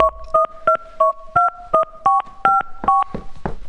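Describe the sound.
Touch-tone beeps as a mobile phone number is dialed: a quick, evenly paced series of short, clear two-note keypad tones, loud and alone, followed by a faint noisy tail.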